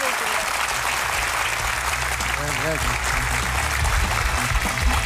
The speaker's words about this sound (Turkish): az bu kadar alkış duyuyorum ben. Bu sefer iyi alkış geldi yani.